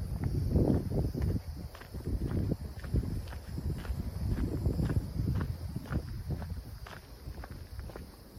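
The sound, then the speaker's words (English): Footsteps crunch along a path of sharp oyster shells by a shoreline near a fishing and kayaking area, with many steady, gritty steps in an even walking rhythm. “we're walking along a shell path.”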